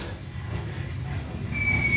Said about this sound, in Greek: Το τρένο ξεκινά.